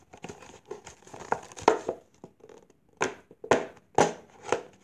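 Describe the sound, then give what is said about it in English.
Cutting and stabbing a hole along a red line, with crinkling and crackling interrupted by irregular sharp snips and pokes and several louder distinct bursts in the second half. “There's a little red line, so I'm just gonna cut, stab a hole”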